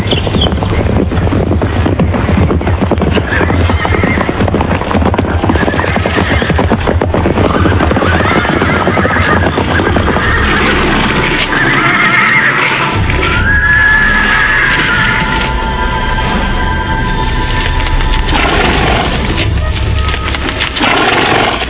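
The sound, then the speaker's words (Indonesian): Galloping horses carrying approaching riders: a dense, loud, continuous pounding of hoofbeats that runs throughout without a break. “tak lama kemudian terdengar derap orang-orang berkuda semakin dekat.”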